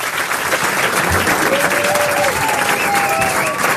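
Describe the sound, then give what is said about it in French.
Audience ovation welcoming a singer onstage: a dense, steady wash of applause that holds at an even, fairly loud level for the whole stretch. “Je voudrais une ovation s'il vous plaît pour Stilto.”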